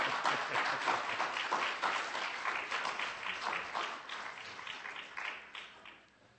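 Congregational applause greets a family of singers: a dense, sustained wash of many hands clapping that gradually thins and fades away in the final second.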